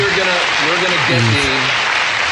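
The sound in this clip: A studio audience applauds at a late-night talk show. Dense, steady clapping fills the whole clip while voices talk over it.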